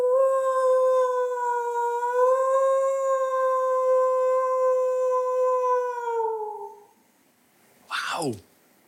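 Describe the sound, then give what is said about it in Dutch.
A person imitates a wolf howl: one long, steady, tonal howl that holds its pitch for several seconds, then glides downward and fades out. A short, sharp falling sound follows after a brief pause. “Dus ik heb geleerd hoe je huilt als een wolf.”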